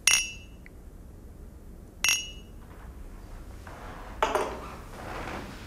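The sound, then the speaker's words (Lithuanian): Cheap, inexpensive glass clinking: three bright, short clinks spaced about two seconds apart, each with a thin ring that dies away quickly, the last one slightly doubled, with no talk. “Tai dėmesio taip skamba nebrangus stiklas.”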